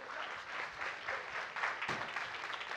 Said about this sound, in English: Y'all give them a hand clap.